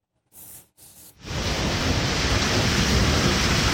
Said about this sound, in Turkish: Güneydoğu Anadolu bölgesinde etkili olan sağanak yağışlar hayatı durma noktasına getirdi. Cadde ve sokaklar su altında kaldı ve bazı evleri de su bastı.